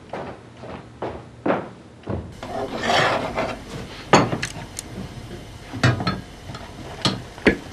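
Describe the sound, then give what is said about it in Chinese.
Pliers work at a screw and pull something out, making scraping, rubbing grinds, with many short, sharp bursts between quieter rasping, and no talk. “那家里有没有螺丝给拧拧？拿钳子一拔就出来了。”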